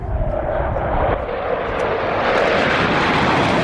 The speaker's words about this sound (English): Listen to that. Listen to that. Mm. You know, we've got 75 fighter aircraft.